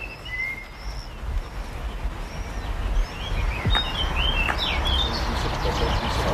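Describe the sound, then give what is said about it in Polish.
Birdsong outside a house in Lewin: scattered chirps and short whistled notes come and go over a steady low background noise throughout. “Pięknie śpiewają ptaki.”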